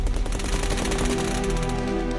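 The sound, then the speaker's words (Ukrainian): Machine-gun fire opening from a tree line: a loud, continuous burst of rapid, evenly spaced shots that rattles on for the whole clip. “Тут же з посадки, наче по команді, відкрили вогонь.”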